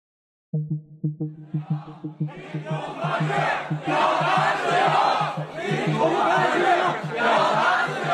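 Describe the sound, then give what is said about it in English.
Students at Beijing's Tsinghua University chanting at a protest for free media and less censorship: a quick run of rhythmic unison syllables, then a loud, sustained crowd roar of shouting voices. “It's the sound of students at Beijing's Tsinghua University calling for a free media and less censorship.”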